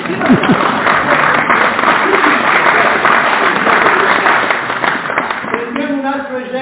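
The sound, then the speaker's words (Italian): Audience applause, dense, steady clapping at a loud level that fades slightly near the end as a voice starts talking. “Vabbè, se volete per l'applauso.”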